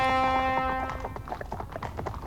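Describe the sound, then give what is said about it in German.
Horse hooves clatter through morning-quiet villages in a radio drama, a sustained brassy horn-like tone opening and fading before a run of irregular, soft clops and taps continues alone. “Hufe klappern durch die morgenstillen Dörfer, Fanfaren blasen.”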